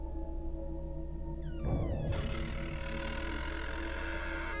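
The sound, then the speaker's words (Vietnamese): A wardrobe door slowly creaks open in one drawn-out creak with falling pitch, lasting under a second over a steady background drone. “Tiếng cánh cửa tủ được từ từ mở ra.”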